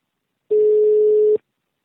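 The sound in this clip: A telephone ring tone on an incoming call: one steady, loud electronic tone lasting just under a second, alone, with silence before and after.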